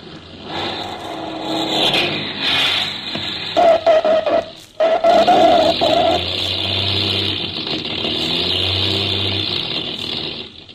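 A light aircraft's engine drones steadily as the plane comes in to land, a continuous mid-pitched rumble with a brief higher whine partway through, just before its ignition is switched off.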